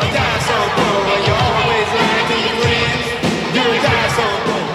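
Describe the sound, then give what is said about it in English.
A capacity crowd at SkyDome cheering at WrestleMania, a loud, continuous roar of massed voices with scattered yells and occasional thuds rising through it. “a look at the capacity crowd here at Skydome for the once a year happening of WrestleMania.”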